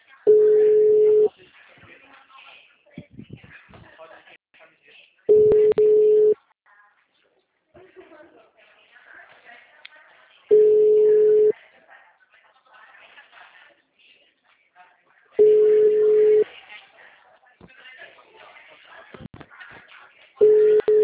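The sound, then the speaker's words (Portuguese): A telephone ringback tone plays while a call is being placed: a low steady beep lasting about a second, repeating roughly every five seconds, with faint background noise in the gaps between tones. “Tô tentando não ligar pro cliente. Tô tentando ligar, mas tá tocando.”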